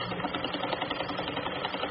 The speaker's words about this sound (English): locals have put sewing machines to work to make different types of masks for local medical professionals.